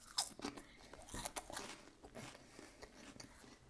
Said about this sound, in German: dann jetzt zu meinen Lieblingschips von Sun Snack sind die Light Chips. Die kenne ich auch schon. Aber ich muss sie nochmal probieren.